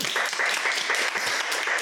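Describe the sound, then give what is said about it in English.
Audience applause for a presenter: a dense, steady wash of many hands clapping at a fairly even loudness from start to finish. “Kirsty, I had to ask for a round of applause for the other presenters, and you managed to go get one off your own bat.”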